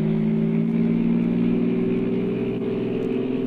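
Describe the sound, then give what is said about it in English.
A car engine drones steadily with a deep, rich hum and a layer of rumble, driven hard along a rainy country road in the Alleghenies, loud and continuous with no voices. “I stepped on the gas like a shot.”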